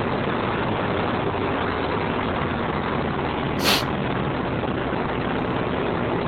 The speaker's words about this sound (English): Currently, the twin solid rocket motors are performing nominally.